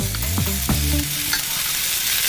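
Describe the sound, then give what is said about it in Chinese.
Cured pork slices and stir-fried arrowhead slices simmer in a wok with a little added water over low heat, giving a steady, continuous sizzle and bubble that holds an even level throughout with no voices. “锅中直接放入第二份腊肉片，再倒入炒过的茨菇片，加少许清水，小火焖煮约两分钟收汁”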